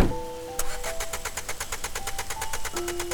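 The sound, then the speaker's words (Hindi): A taxi engine fails to start after rainwater got into it. The starter cranks in rapid, even pulses for over two seconds without the engine catching. “लेकिन taxi start नहीं हुई। शायद बारिश का पानी engine में चला गया था”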